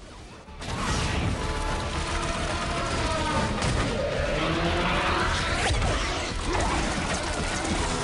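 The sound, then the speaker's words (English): Motorbikes accelerating and chasing through traffic: after a brief quiet start, a loud, continuous engine roar surges in and keeps churning, rough and dense, to the end. “His bike spurts forward. Ford follows through traffic. Henry shoots behind him.”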